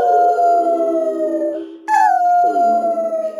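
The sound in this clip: A dog howling in two long, loud, sustained cries: the first slides gradually lower in pitch, then after a brief break the second starts high and drops quickly before holding steady.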